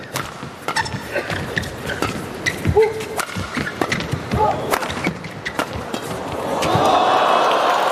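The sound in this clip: Racket strikes in a doubles rally that opens with a serve: many sharp, quick cracks in an irregular rhythm, with crowd noise swelling loudly near the end.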